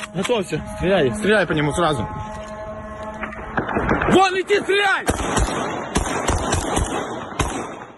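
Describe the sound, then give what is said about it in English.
Gunfire as forces in Kyiv shoot at an armed drone passing overhead. Sharp, loud bangs crack out in an irregular run during the latter half, amid voices and a steady rumbling background. “That's the sound of an armed drone whizzing above Kyiv on Monday. The weapon was on its way to blow up a target, and Ukrainian forces tried to shoot it down.”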